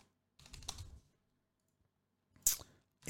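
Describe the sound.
Typing on a computer keyboard while looking up football players' names: faint bursts of rapid clicking keystrokes, separated by a long silent pause, with a short final flurry at the end.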